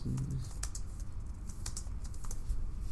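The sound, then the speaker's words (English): Rapid typing on a computer keyboard during a web search, many quick, irregular key clicks in a steady stream with no talk over it. “If you guys hear some clitter clatter, that is me Googling something right now.”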